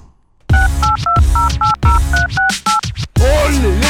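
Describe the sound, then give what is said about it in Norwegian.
A telephone number being dialed on a touch-tone keypad: a rapid run of eight short, clear beeping key tones in an uneven rhythm over a loud musical bed. “vi skal jo nå ringe til eh, Åsmund eh, Bjørkan i eh, Bodø-Glimt.”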